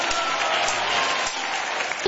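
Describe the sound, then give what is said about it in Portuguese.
A church audience applauding for Jesus with dense, steady clapping that holds at an even level throughout. “Então dá uma salva de palmas para Jesus.”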